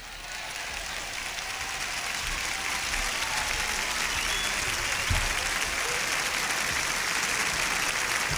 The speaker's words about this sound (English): how about I have a big round of applause for John Hendricks.